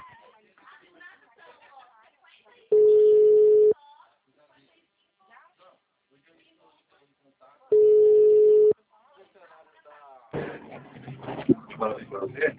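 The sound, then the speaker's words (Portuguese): Telephone ringback tone heard while a call is being placed from a phone. Two long, steady mid-pitched tones are separated by a pause, with talking voices between them and after. “telefoninho aqui, porque eu tô ligando por esse telefoninho agora.”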